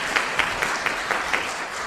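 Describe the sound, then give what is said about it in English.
A church audience gives a round of applause, a dense wash of clapping with six sharp, evenly spaced claps standing out in a steady rhythm. “Thank you so much. Round of applause.”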